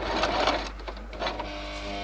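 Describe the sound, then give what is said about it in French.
A sewing machine whirs in a workshop where figurines for tactile books are being sewn, a fairly faint, steady mechanical run with rapid stitching pulses. “Dans l'atelier ce jour-là, deux femmes s'emploient à coudre minutieusement des figurines, un véritable artisanat.”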